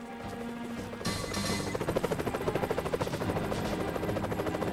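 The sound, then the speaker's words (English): A helicopter arrives overhead: a burst of noise gives way to the rapid, rhythmic chopping of rotor blades, which grows louder and settles into a steady pulsing thump. “A helicopter appears, seemingly from nowhere.”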